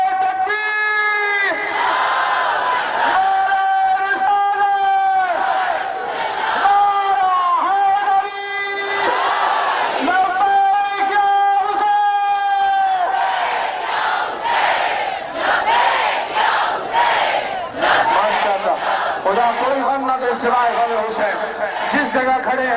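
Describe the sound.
A crowd at a religious mourning gathering chants slogans in unison with both hands raised, loud massed voices rising and falling in repeated rhythmic phrases.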